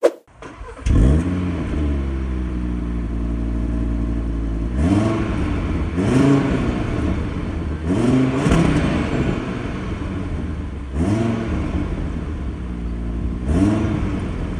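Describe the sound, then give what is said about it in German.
A small sports car engine revs again and again over a continuous idle rumble. Its pitch sweeps up and back down in many loud bursts, with no talk over it. “Es ist ein kleiner Sportwagen mit einem, wie ich finde, interessanten Motor. Ja, kann man so sagen. Und da würde ich sagen, ist es jetzt der richtige Zeitpunkt, um sich mal den Sound anzuhören.”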